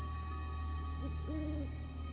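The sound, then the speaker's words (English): An owl hoots in a forest, one short hoot followed by a longer, steady one, over a constant low hum. “Others are shadowy creatures of the forest, especially the owl, the Iroquois omen of death.”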